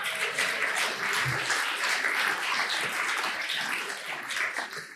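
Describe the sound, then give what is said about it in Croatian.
An audience at an advertising awards event applauds its advertisers' jury. The clapping is thick and sustained, holding steady before thinning and fading in the final moment. “Jedan aplauz za naš žiri oglašivača.”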